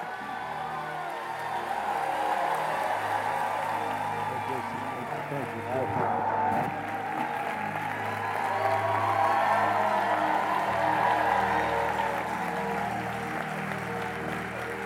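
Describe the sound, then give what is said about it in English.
A church audience applauds in steady, sustained clapping mixed with crowd noise, holding an even level for about fifteen seconds. “you to put your hands together. Give a warm welcome to the ministry gift of Dr. Bill Winston.”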